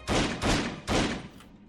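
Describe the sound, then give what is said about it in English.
Three gunshots hit a bulletproof window in a James Bond film scene. The loud, booming blasts come in quick, slightly uneven succession, each trailing a short ringing decay, and a fainter fading tail follows. “what he does is he like comes up on the window between them, shoots this window three times, and this is what plays out, right?”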